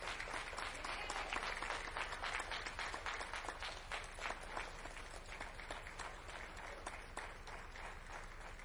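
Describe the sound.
Audience applause greets a speaker welcomed onstage at a church Bible study night: dense, steady clapping that holds evenly for the whole stretch at a fairly soft level.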